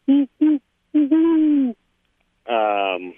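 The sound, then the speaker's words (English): A person imitates an owl's classic hoot: two short hoots, then a short hoot running straight into a longer one, a brief silence, and a final long drawn-out hoot, all alone without talk. “maybe I can, if I can try to mimic the vocalization. It's just sort of that classic owlish hoot.”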